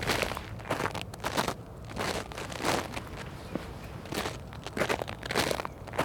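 Footsteps crunching along a forest path, a steady run of many scuffing, crackling steps at an even walking pace, fairly faint and with no talk.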